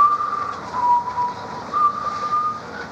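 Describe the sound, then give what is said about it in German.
Whistling of a church hymn melody: a thin, faint tone of a few long held notes that dip in pitch and return, over steady background hiss. “Was pfeifst du da für eine komische Melodie? Das ist ein Kirchenlied.”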